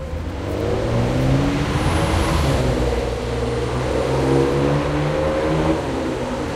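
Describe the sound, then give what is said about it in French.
A black Ferrari sports car rumbles at a traffic light on a deserted street with a steady, loud low engine growl. Broad hiss and slight swells run throughout. “Il n'y a personne dans Neuilly à part une Ferrari noire là, arrêtée au feu.”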